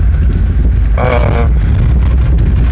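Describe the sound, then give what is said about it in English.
Loud, constant rumbling roar of a vehicle with something wrong with it, driving down off a mountain. The low, droning engine and road noise run throughout, with a brief higher whining burst near the middle. “boy, you can hear the fact that this vehicle, there's something up with this vehicle.”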